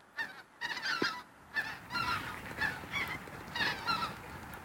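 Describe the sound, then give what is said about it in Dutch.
Large flocks of geese honk in flight at sunrise, a busy overlapping chorus of many nasal calls that rises and falls in loudness. “Grote groepen ganzen. Kijken of we ze horen.”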